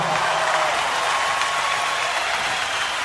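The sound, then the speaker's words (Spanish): Steady, dense applause for the Mendoza Symphony Orchestra, a continuous wash of many hands clapping at an even level with no voices. “Y el gran aplauso se lo lleva la Orquesta Sinfónica de Mendoza.”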